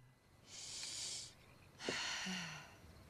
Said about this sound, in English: She closes her eyes, puts her hands together, and breathes deeply.